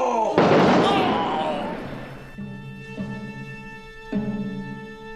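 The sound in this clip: A firing-squad volley in a radio drama about Emiliano Zapata: one loud, crackling burst that rings out and slowly fades, followed by sustained tonal notes.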